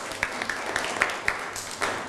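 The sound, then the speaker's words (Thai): A school class clapping for a classmate, a steady rhythmic beat of many claps evenly spaced about a quarter-second apart. “เก่งมากปรบมือให้เพื่อนหน่อยครับ”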